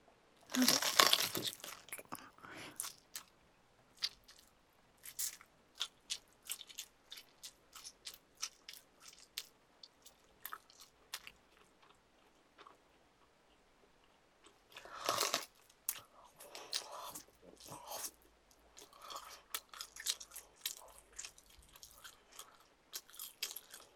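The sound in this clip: Close chewing of tender neck meat: many soft, crunchy bites and wet mouth sounds come in irregular bursts, with a quieter stretch near the middle before the chewing picks up again.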